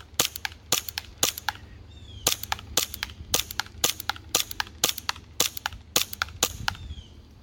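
Sharp shots from an HPA-powered gun during target shooting practice: a steady series of many crisp, loud cracks at a fairly even rhythm, with no talk between them.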